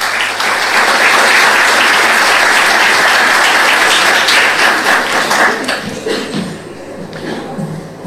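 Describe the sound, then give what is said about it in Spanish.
Audience applause welcoming a speaker at an event marking a city customs house's 150th anniversary: a loud, dense wash of clapping that holds for about five seconds, then thins and fades. “Lo recibimos con un aplauso.”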